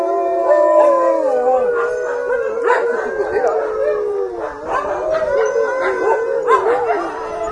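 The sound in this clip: Several dogs howling together at a kennel housing nineteen dogs: overlapping, drawn-out, wavering howls with occasional yips and barks, loud and continuous throughout.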